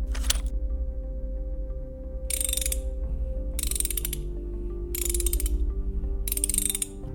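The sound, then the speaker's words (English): A wrench and pliers at work: five short bursts of rapid ratcheting clicks, the first brief and the rest evenly spaced, over a steady low mechanical hum. “Pliers. The wrench.”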